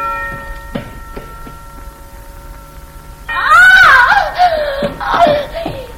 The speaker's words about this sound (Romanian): a țipat așa de tare?